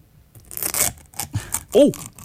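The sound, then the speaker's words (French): An aluminium foil lid is peeled off a yogurt pot by its small tab, making a few short, crinkly ripping bursts. A voice is briefly heard near the end. “On y va pour la pellicule d'aluminium. Absolument. C'est cool, il y a une petite languette. Ben, ça aide, hein, ça aide à l'ouvrir.”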